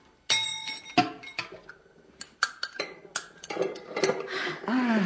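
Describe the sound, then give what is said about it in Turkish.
Metallic clinks and knocks of a chisel and pestle prying open the lid of a box, with many sharp, irregular taps and short scraping rattles between quieter pauses. “Şu keski ve havaneli işimizi görür.”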